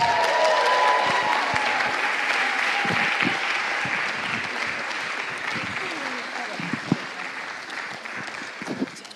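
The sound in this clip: Audience applause welcoming two guests onto the stage at a church event: dense, steady clapping from a large crowd that holds for several seconds and slowly tapers.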